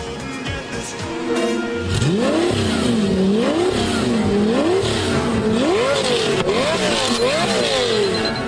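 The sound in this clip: A Fiat Panda car engine revving: several loud rev sweeps, each pitch climbing and dropping back, in a steady repeated rhythm over a continuous engine drone.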